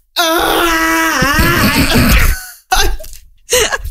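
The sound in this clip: A voice imitates someone crying, with a loud, sustained wailing sob of wavering pitch followed by two shorter sobbing bursts after brief pauses.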